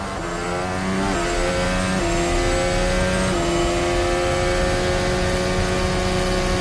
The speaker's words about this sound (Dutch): Klinkt alsof die cilinder mist, hè? Niet hoog in de toeren ook.